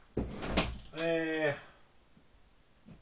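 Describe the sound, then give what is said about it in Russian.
A door being opened gives a few sharp clattering knocks, followed by a brief tonal sound, then quiet; the whole sequence is faint. “Ну где, дверь просто открываю.”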